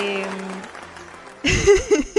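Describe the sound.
Applause for an award winner bursts in suddenly after a voice and carries on to the end as a short, dense wash of clapping.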